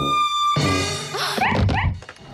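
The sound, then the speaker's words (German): A neighbour's dog raising the alarm at a shop window, letting out a few sharp, quick barks in close succession against a sustained tonal background. “Durch das Schaufenster guckt plötzlich der Hund der Nachbarin herein und schlägt Alarm.”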